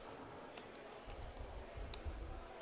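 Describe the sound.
Soft, faint typing on a computer keyboard while a commit message is written: a quick, irregular patter of light key clicks over a low, steady hum.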